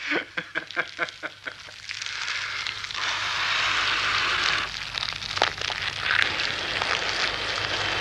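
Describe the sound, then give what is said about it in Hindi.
A fire of dry sugarcane leaves burns faintly, opening with a quick series of sharp pulses before settling into a steady rushing hiss scattered with crisp crackles and pops. “मैंने इसी मारे ऊख के सूखे पत्तों की आग जला ली थी। चिलन ताजा करने के काम भी आया है।”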